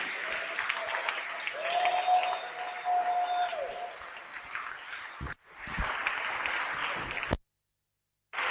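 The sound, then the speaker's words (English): An audience applauds to welcome a bishop at a church service. The clapping is dense and sustained, with a steady held tone beneath it early on. It dips briefly midway, then stops abruptly into silence near the end. “You want to stand to your feet and put your hands together and welcome the Bishop, Bishop Adi Adi.”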